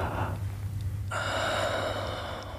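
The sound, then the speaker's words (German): A deep inhalation: one long, airy breath drawn in through the nose and mouth, soft and steady, with no talk. “Tief einatmen.”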